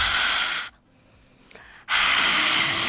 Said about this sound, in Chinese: 张开嘴巴吐气